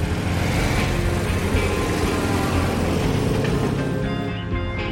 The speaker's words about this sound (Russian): Машина въезжает на паром.